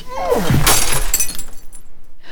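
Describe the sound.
A glass perfume bottle falls and shatters: a loud, bright crash of breaking glass, followed by scattered tinkling and clinking as the pieces settle.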